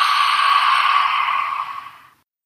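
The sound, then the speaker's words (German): A deep breath during a guided self-love meditation: one long, steady breathy rush, alone and fairly loud, that holds for about two seconds before fading out. “atme ganz tief durch die Nase ein und durch den Mund aus.”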